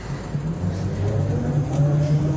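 Low engine drone of a car being driven, a steady rumbling hum with a continuous low tone that holds for the whole stretch.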